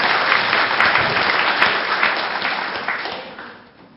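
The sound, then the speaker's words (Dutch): An audience applauds to encourage nervous children of a kids' club about to perform a song. The dense clapping is strong at first, then gradually thins and fades toward the end. “Ze vinden het wel heel spannend, dus geef er even een applaus. Moedig ze even aan, hoor.”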